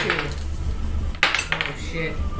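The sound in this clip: Dice being shaken and rolled during a tabletop role-playing game, including a twenty-sided die. Many clattering rattles and clicks continue throughout, with one sharper clack near the middle, while people talk underneath.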